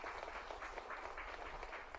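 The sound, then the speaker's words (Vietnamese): Applause from an audience welcoming one of its members, dense and steady clapping that carries evenly through the whole moment without a break. “Vỗ tay hoan nghênh cho người bạn này.”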